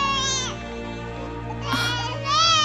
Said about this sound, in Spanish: Oh, hijo, ¿qué pasó? Y se arrodilla junto al bebé que jugaba sobre una manta. ¿Por qué lloras?